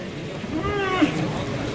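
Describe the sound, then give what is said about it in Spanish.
A bull bellows in the bullring, one short, tonal lowing call rising out of steady background noise. “Ahí está el toro en el burladero del 4, sigue berreando”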